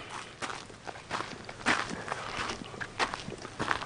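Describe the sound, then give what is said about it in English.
Footsteps of people walking uphill at a placer mining site, many crunching steps in an uneven rhythm, with a few heavier footfalls standing out above quieter shuffles. “We'll walk up this way now.”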